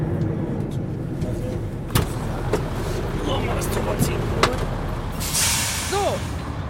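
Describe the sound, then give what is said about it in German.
A car creeps slowly forward with a low, steady rumble, broken by a few sharp knocks and a brief rising squeal near the end, while people talk over it. “Lass ihn so, wie er ist, stehen und fahren noch ein bisschen weiter vor einfach. So, wie er ist, weiter vor.”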